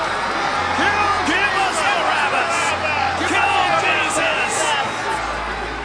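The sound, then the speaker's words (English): Angry crowd shouting in a dense, continuous roar of many raised voices, demanding a verdict before Pilate. The shouting stays loud and steady throughout. “But the whole crowd shouted,”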